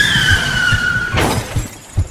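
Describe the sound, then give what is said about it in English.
A car crash in a parking lot, where a fast-moving security car hits a car turning left: a long, high tire squeal gives way to a loud crunching impact with shattering glass, then a few scattered clatters. “That's when they collided with the kidnapper who was making a left turn, causing him to spin out to a halting stop.”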